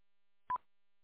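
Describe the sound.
A single short telephone keypad tone beeps once, clean and steady, surrounded by silence.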